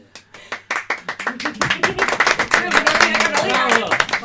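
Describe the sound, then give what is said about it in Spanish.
An audience applauding, starting with a few scattered claps and quickly swelling into dense, steady clapping that stays loud to the end. “Os aplaudís a vosotros mismos, está muy bien.”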